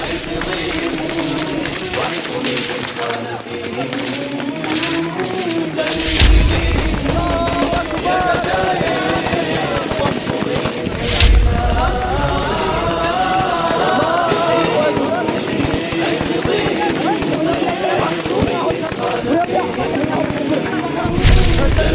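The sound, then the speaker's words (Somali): Rifle gunfire from a film of a mujahideen military advance. Dense bursts of shots are mixed with heavy booms and a rough continuous roar, and voices carry on over it throughout. “wuxuu filmka ku bilaabanayaa taqaddumka ciidamada mujaahidiinta iyo rasaasta qoryaha ka dhacda oo sida darandoorigi oo kale ugu hoobanaysa difaacyada cadawga”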